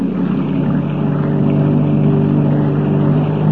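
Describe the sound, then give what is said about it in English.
Motorboat engine running as the boat is cast off to leave a cove, a steady low droning hum with a faint rumbling pulse, holding an even loudness throughout. No talk. “Cast her off. The sky is light now. We don't want Boris to see us stealing his boat.”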